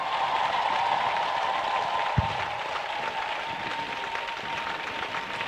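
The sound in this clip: A crowd at a Christian women's worship gathering applauds in acclaim of Jesus. Steady, continuous clapping holds an even level throughout, with one soft low thump partway through.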